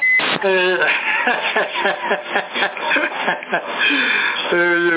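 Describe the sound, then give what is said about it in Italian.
Short electronic roger beeps on a CB radio transmission in Sassari: a steady tone opens the burst, then harmonic beeps sound before and after a stretch of crackly, band-limited voices talking. “Senti, quello col bip a me mi piace. Adesso li tolgo il bip, aspetta.”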